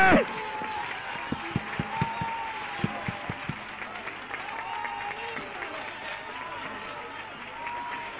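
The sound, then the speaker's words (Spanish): A church audience applauds during a sermon. Fairly faint rhythmic clapping comes through for the first few seconds and then fades into a steady crowd murmur with voices. “¡Dale un aplauso a Cristo, que Él se lo merece!”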